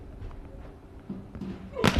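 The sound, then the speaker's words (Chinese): A powerful volleyball jump serve is struck hard, landing as a single loud, sharp smack near the end after a stretch of low background murmur. “大力的跳发，冲击力很足，对方直接把球垫过来”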